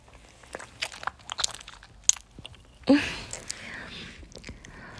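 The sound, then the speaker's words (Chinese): Biting into and eating an ice pop: a few sharp, crisp snaps, then a louder crunching burst that fades into softer chewing. “我在吃冰棍儿呢。”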